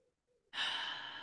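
A deep breath taken during an emotional tapping exercise: after a brief faint low murmur, a loud airy rush of breath begins abruptly and holds steady, slowly easing off.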